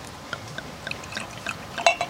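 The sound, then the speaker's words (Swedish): Swedish wine, a 2024 Immelen bottle, being poured: faint trickling and dribbling liquid with a few small clinks, ending in a couple of louder gurgling glugs near the end. “Då öppnar jag en flaska Immelen 2024.”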